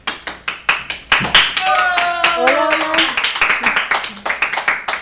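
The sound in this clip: A live audience claps in a steady rhythmic beat, the many sharp claps loud and regular, briefly blurring into a continuous roar with voices rising over it in the middle before the even rhythm returns.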